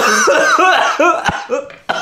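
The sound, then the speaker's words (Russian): A person coughing: a rapid series of loud, harsh, voiced bursts, some with a laugh-like tone, ending with a short final cough. “И кашель! И кашель! И кашель!”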